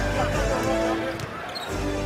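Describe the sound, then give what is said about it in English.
A basketball is dribbled during a game, a few dull, rhythmic bounces heard under steady voices talking over the play. “Prigioni with the steal. Hall's trying to beat him off the dribble.”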